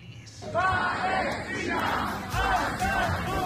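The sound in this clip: A concert audience chants "Palestina Skatu" in unison, loud rhythmic phrases repeated a few times with a brief lull between them.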